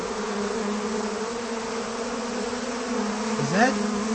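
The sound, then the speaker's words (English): Bees buzzing around a beehive with a door left open, a steady low droning hum with layered overtones and a brief rising swell of buzz near the end. “The bees are coming in.”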